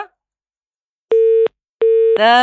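A telephone busy tone follows a cut-off call. Two short, evenly spaced mid-pitched beeps break a silence, then another sound cuts in right at the end.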